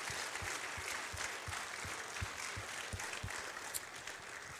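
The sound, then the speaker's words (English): Audience applauding at a church awards event, faint but steady, with an even clapping beat running through the whole clip. “All right, let's give her a hand. Congratulations.”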